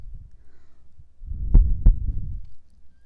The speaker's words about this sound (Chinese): 听着姐姐为你跳动的心跳。